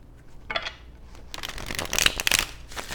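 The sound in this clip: A tarot card is pulled from the deck with quiet papery rustles, flicks and slides of cards, coming in a few soft bursts that grow busier toward the end, with no talking.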